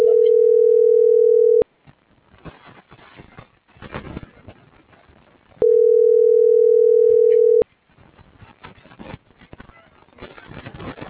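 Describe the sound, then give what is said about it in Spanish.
Telephone ringback tone after dialing a call: two steady, mid-pitched tone bursts of about two seconds each, separated by a few seconds of crackly line hiss. “marcando a Samuel”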